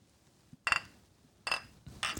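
Glasses clinking together in a toast over drinks, three bright, ringing clinks spaced about half a second apart, each leaving a short shimmering tail, with no talk over them.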